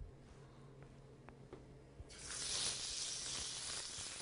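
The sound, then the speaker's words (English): A steak sizzles in hot olive oil in a pan: after a quiet start with a few faint clicks, a loud, bright hiss bursts in at once and keeps going at full strength to the end. “Take a little bit of olive oil. It should be hot. Better be hot. The pan, that is. And take your steak, put it right in there.”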